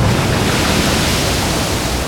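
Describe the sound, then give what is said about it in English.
Ocean waves rolling around a long gray supertanker over 300 meters long at night on the Arabian Sea, a loud, steady, unbroken wash of rushing water with no distinct breakers. “Night fell on the southern reaches of the Arabian Sea. A long, gray supertanker, stretching over 300 meters, rose and fell with the cadence of the rolling waves.”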